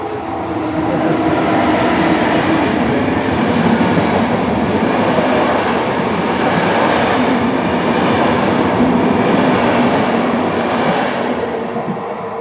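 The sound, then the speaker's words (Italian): A train running on rails gives a steady, loud rumble with continuous rail clatter and wheel noise that holds evenly for the whole stretch. “arriva il nostro treno, prendilo.”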